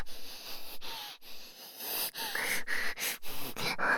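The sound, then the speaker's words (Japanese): Heavy, noisy breathing through the nose, several rough, hissing breaths separated by short gaps, uneven in strength and sometimes edged with a faint wheezy whistle. “鼻息荒くてごめんなさい。”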